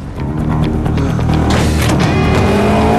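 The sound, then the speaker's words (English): Two racing cars roar past side by side at speed, their engines a loud, sustained, overlapping howl with no voices. “Both cars pass through the early evening rays of sunlight.”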